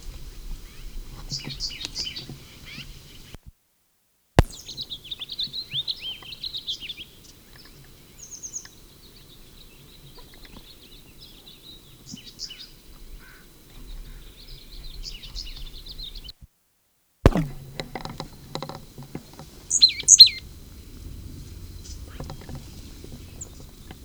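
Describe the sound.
Bird calls answering another bird's call: short, high chirping bursts come in several separate spells with quiet gaps, alongside a few soft knocks and a sharp thump, while a faint whisper-like voice is briefly present.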